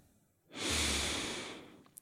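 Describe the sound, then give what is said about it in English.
A deep breath is drawn in through the nose, a soft, airy inhale that swells and holds for over a second before fading. It is quiet and stands alone without talk. “Okay, full breath in through the nose.”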